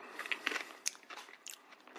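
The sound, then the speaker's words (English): Crisp bites and chewing on a crunchy peanut butter cup with bits of peanut, producing a few short crackling crunches. The crunches are faint and there is no talk. “There's a little crunch to it. There's a little crunch that you don't normally get in a Reese's Cup.”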